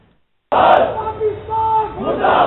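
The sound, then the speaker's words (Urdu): A crowd of protesters shouts and chants at a demonstration in Lucknow against the demolition of the Jannat al-Baqi graves. The dense, loud mass of voices bursts in after a brief silence and carries on. “یوم انہدام جنت البقیع پر پیر کو لکھنؤ میں وسیع پیمانے پر احتجاجی مظاہرے ہوئے۔”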